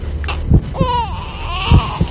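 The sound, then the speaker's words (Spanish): An infant cries in two drawn-out wails, each bending up and down in pitch, with a few soft low thuds around them. “¿Se oye un bebé? Sí, de momento se oye un bebé”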